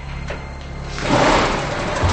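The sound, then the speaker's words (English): A barred prison cell door slides open along its track, a broad rolling rumble that swells about halfway in and carries on to the end. “The warden unlocks the door, sliding it open”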